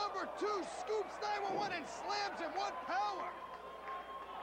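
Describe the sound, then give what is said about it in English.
A pro wrestler thuds onto the ring mat after a press slam by his tag team partner at a 1994 ECW event: a single heavy impact amid crowd noise, with commentators talking. “Pitbull number two, press slam Pitbull number one. Nice teamwork there.”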